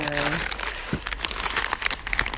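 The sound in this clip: Crinkling and crackling of a package of glass fragments being opened, a dense run of many small rustles and snaps at a steady level, with a brief voice at the start.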